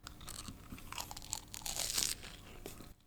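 Crunchy chewing of a coconut-flavoured sweet potato snack, crisp outside and chewy inside, with many crisp crunches and crinkling bites in an uneven rhythm, fairly faint, with no talk.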